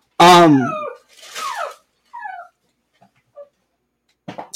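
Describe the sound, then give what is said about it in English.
A dog gives a loud, high yelp followed by a few shorter whines and whimpers, with brief silences between them and a soft sound at the end. “Now, excuse the dog. We got a dog.”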